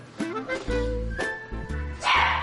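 A dog barks and yips in a few short bursts while being groomed and having its nails painted with special dog polish, the sharp barks fairly loud over a low steady hum.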